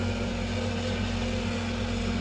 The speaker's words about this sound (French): le commandant Houot veut décoller et ça ne décolle pas. C'est bien exact, ça ne décolle toujours pas.